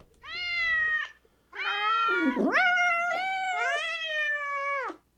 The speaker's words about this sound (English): We were in front of the cat room. It was huge and there were cats everywhere.